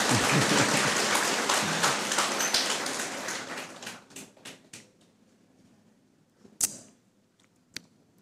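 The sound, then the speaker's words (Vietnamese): An audience applauds in a dense, loud patter that gradually thins and fades over several seconds, leaving a couple of isolated claps near the end. “Rồi, vỗ tay đi.”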